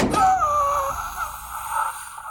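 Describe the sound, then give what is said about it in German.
A door opening with a drawn-out, wavering creak that dips slightly in pitch before trailing off into a softer sustained tone. “Dann öffnete sich die Tür.”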